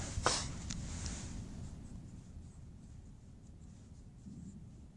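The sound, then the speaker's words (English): Faint scratchy handwriting strokes during a physics lesson on torque, a sharper stroke near the start and then soft steady scraping over a low background rumble. “Let's write those in order.”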